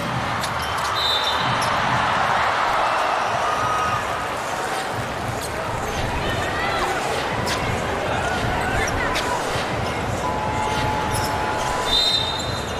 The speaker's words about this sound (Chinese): 长篮板。中队要注意篮板球的拼抢啊！